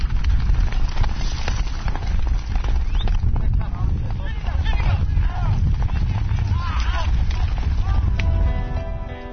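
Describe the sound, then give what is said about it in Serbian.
Fast horse hoofbeats drum in a rapid, continuous gallop, loud and dense from start to finish with little variation. “Evo sad ćemo da čujemo taj topot konja, pa da vidimo da li je to baš tako.”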